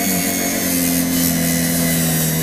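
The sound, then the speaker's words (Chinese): A grinding wheel sands a paper mould, the paper shell of a golden horse craft toy, making a loud, continuous abrasive whir with a steady hum that holds one pitch throughout. “刚才拿那个砂轮打是大面积的，然后一些就像犄角旮旯细部，就要拿砂纸再打一打”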